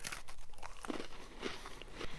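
Someone bites into a Hydrox chocolate sandwich cookie and chews it, making quiet, crisp crunches and crackles in quick succession.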